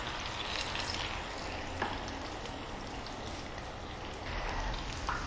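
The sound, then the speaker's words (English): Tofu deep frying in oil in a deep fryer gives a steady, dense sizzle and crackle that holds fairly even throughout, with a few slightly louder pops and no voices. “Okay, once it's in, you just submerge the tofu and you let it fry for about 3 minutes.”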